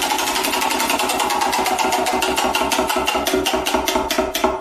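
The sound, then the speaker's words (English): A prize wheel spins with rapid, evenly paced clicking, a steady stream of sharp ticks that runs through the whole stretch with no talk. “Why don't we spin the Wheel of Destiny and see what we're going to talk about next?”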